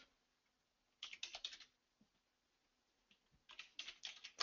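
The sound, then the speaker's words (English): Typing on a computer keyboard as a user name is entered: two quick bursts of soft, rapid keystroke clicks with a few isolated taps between them, quiet and alone. “You just have to type in the name of the user.”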